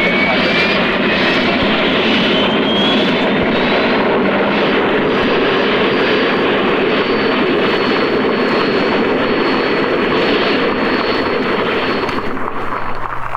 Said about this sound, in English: That was the sound of the turbine experimental.